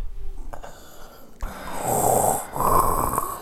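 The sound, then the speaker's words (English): A voice imitates heavy mechanical respirator breathing, producing two long, rasping, hissing breaths one after the other after a quiet start. “Would you rather breathe like Darth Vader for the rest of your life?”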